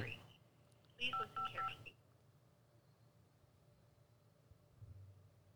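Telephone keypad tones while navigating the Peterborough police automated phone menu: a quick cluster of several bright touch-tone beeps, followed by faint line hiss and a low hum.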